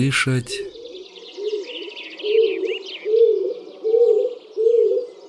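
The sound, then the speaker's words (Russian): A pigeon cooing in an old oak forest, with several soft, low rolling coos repeating at an even pace and brief higher chirps from other birds early on. “Кто? Вот тот голубь? Ведь это он, кажется, так воркует.”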